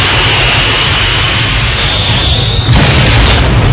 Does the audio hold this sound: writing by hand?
no